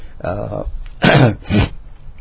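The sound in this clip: A person clears their throat and hawks: a rough voiced rasp comes first, then two short, harsh guttural hawks in close succession.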